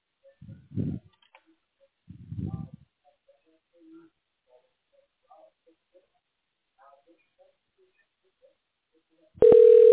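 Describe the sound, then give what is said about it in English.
A telephone dial tone sounds as a call is placed to a tax specialist: a loud, steady tone cuts in abruptly at the very end after near-silence broken only by a few faint clicks and soft bumps. “Okay, we're dialing the tax specialist. Bear with me a moment.”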